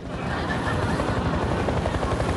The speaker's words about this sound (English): The TV chopper's searchlight sweeps across them.